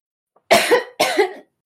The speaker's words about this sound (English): I'll leave all those coughs in.